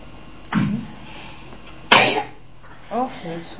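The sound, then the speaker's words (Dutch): Wet sneezing from someone with a mouth full of beetroot: two sharp, noisy bursts over a low background hum, followed by a brief voiced sound. “Niezen met je mond vol biet.”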